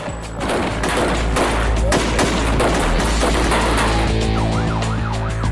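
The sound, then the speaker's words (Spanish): Heavy, rapid gunfire from heavily armed kidnappers shooting at police: many dense, overlapping shots in a loud, sustained volley, with a wavering siren rising and falling near the end. “Los secuestradores, fuertemente armados, solo ven a dos policías y disparan.”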